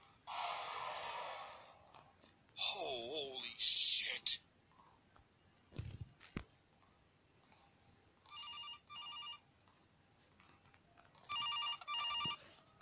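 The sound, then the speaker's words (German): A telephone rings in a video game: two bright, buzzy electronic ring bursts, each split into a quick double pulse, coming after earlier clattering and whooshing game sounds. “Ich muss hier den Anruf annehmen.”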